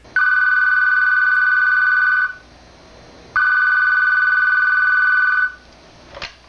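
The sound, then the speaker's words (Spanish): A telephone rings with two long, steady electronic tones of about two seconds each, separated by a brief silence, followed by a short click. “cuando de repente suena el teléfono”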